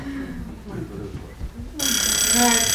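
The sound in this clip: Alarm ringing: after a stretch of people talking, a loud, bright, buzzing ring starts abruptly and holds steady to the end.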